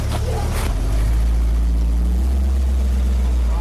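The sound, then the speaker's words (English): The Batmobile pulls away in Cambridge with a deep, loud engine rumble. The rumble holds steady and dense throughout, with a brief rougher surge at the start. “So here's the Batmobile just pulling out of Cambridge now.”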